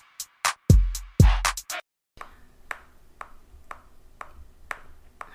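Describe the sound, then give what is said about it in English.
A metronome clicks loudly in an even, steady beat of sharp ticks, following a few heavier knocks and bumps at the start. “Why is the metronome so fucking loud?”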